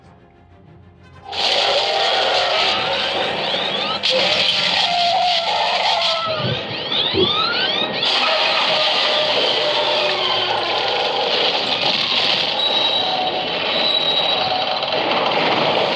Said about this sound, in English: Yeah, it was that big ship that Anakin and Obi-Wan crash land. Yeah, I actually just heard this at the gym. The episode we had this on, it was Grievous' ship's crash landing.